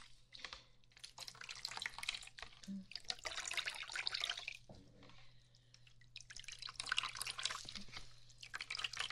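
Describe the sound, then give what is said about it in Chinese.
Running water wetting someone's hair: a steady, hissing splash that swells and dips in level over a faint low hum, with no talk. “先帮你把头发打湿了。”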